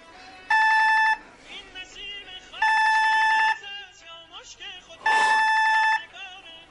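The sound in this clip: Electronic doorbell ringing at a house door, three sustained buzzing tone bursts with steady harmonic pitch, evenly spaced, while people talk in the gaps between rings.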